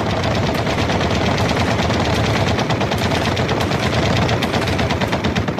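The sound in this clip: Rapid, continuous gunfire from soldiers in front-line trenches firing at will: many dense, loud shots run together without pause throughout, with no voices.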